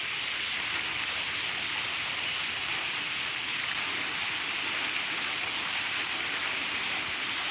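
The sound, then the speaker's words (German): Heavy rain pours during a thunderstorm as the downpour picks up again: a dense, even hiss of countless drops that holds steady throughout, moderately quiet, with no thunder or voices. “Und hier wirkt es jetzt gerade so, als ob noch ein zweites Gewitter jetzt durchzieht, weil der Regen nimmt wieder zu.”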